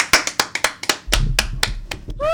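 An audience on a live, unplugged acoustic recording claps in a steady rhythm of sharp claps, joined partway through by a deep low-pitched thump that carries on under the claps.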